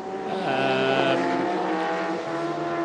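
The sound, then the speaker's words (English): A Volkswagen race car, car 112, drives past on the Brno circuit during a 12-hour endurance race. Its engine makes a steady buzzing, harmonic drone whose pitch shifts slightly as it passes. “going through, still in the lead of his race, the Autorama VW, Antti Pyöri at the wheel of the 112 car.”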